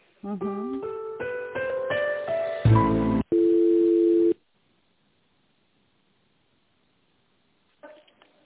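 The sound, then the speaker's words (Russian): Telephone tones as a call is transferred to a finance department: a short stepped series of electronic beeps climbing in pitch, a brief harsh burst, then one steady ringing tone lasting about a second, followed by near silence and a faint noise at the end. “Перевожу на финансовый отдел.”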